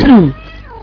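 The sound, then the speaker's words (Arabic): A domestic cat gives one short, loud meow that falls in pitch and fades away in under a second. “في صوت ميشو القط بتاعي قاعد يشد مني السماعة وعايز يتكلم”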